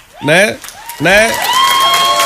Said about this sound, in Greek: Ένα χειροκρόνημα παρακαλώ για τη Μάρο.